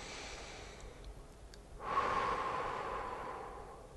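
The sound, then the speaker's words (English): A slow, deep breath taken during a guided relaxation exercise: a soft breathy rush rises after a near-silent moment and then gradually fades over about two seconds. It is faint and heard alone. “Nice relax here. Okay, another nice deep breath.”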